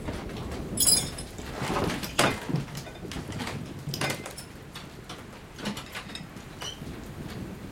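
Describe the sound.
Mechanical clicks and clunks of door locks and latches being checked to make sure the doors are shut tight. A few separate metallic knocks and rattles sound at uneven intervals over a soft, steady background, with no talk.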